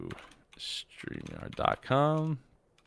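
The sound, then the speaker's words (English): Fingers type on a computer keyboard in short bursts of clicking keystrokes, with a brief voiced sound near the end. “I need to type Facebook right.”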